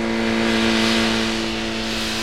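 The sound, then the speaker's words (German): A motorcycle riding away toward town gives a steady, droning engine hum with a low, even pitch that eases slightly in loudness toward the end. “Als sie sich jedoch seinem Haus näherten, fuhr Sam gerade auf einem Motorrad in Richtung Stadt davon.”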